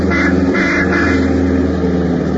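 A car engine drones steadily and loudly from start to finish, a dense continuous motor rumble with a slight wavering roar and no voices.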